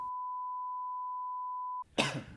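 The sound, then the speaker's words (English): A single short, breathy cough bursts out right after a long, steady high beep tone ends. “Start it with a cough. That's how we know. That's a time marker.”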